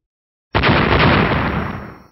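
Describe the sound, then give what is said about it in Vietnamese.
A deep, muffled explosion from a glowing fist strike bursting against empty space in a fantasy battle. One sudden heavy boom is followed by a dense rumbling tail that slowly fades over about a second and a half. “Hư không vang lên một hồi tiếng nổ trầm đục không dứt.”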